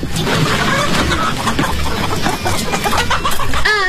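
Chickens clucking inside a chicken coop, a loud, dense and continuous jumble of overlapping clucks and short squawks that runs without pause through the whole stretch.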